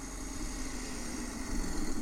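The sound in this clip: A truck engine drones steadily in a video game as the truck drives away after uncoupling from its cargo, a low, even rumble at moderate loudness with no clear change in pitch.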